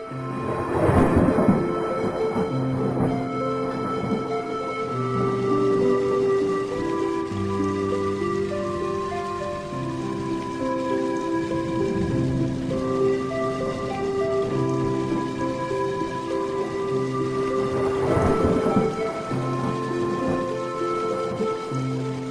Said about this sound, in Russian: через короткое время на них начали падать первые крупные капли дождя.